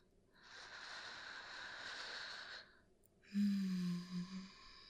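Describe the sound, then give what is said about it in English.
A deep breath drawn in slowly and then let out, the exhale louder and more forceful with a slight voiced rumble, heard alone without talk. “Take a deep breath in.”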